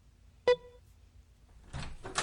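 Key card reader beeping once, sharp and tonal, then after a short quiet spell the door mechanism releases with a couple of rustling, clunking bursts as the door is opened.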